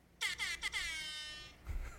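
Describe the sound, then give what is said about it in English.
A Jamaican air horn sound effect blares in a few short, loud, brassy blasts, then holds one long tone that fades out, with no talk over it. “that deserves a Jamaican air horn. Like, because that's fucking wild.”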